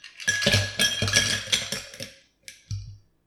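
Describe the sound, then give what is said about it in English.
Ice being added to a glass while mixing a lime juice and sake cocktail: a quick series of bright rattling clinks, then a short pause and two separate, fainter knocks. “Now, at this point, it may be a good idea to stop and add ice to your glass,”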